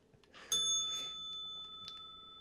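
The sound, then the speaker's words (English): A bell is struck once with a bright metallic ring whose clear tones sustain and slowly fade, with a faint second tap later. “Ring the bell.”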